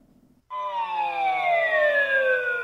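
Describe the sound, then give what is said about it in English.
Wheel of Fortune game show bankrupt sound effect: after a half-second of faint noise, a loud, buzzy harmonic synth tone starts abruptly and slides slowly and steadily downward in pitch until the end. “Oh, that, I believe, is the bankrupt sound from Wheel of Fortune.”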